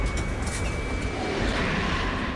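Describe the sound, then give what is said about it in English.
A rover drives through a storm, a loud, dense roar of rumbling motion and rushing noise that holds steady without pause. “The rover rolls through the storm outside.”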